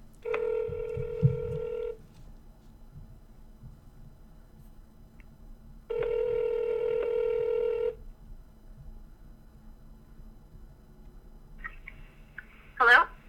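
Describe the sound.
A telephone ringing tone plays while a call is dialed. Two steady tone bursts of about two seconds each are separated by a long quiet pause, and a brief voice answers at the very end.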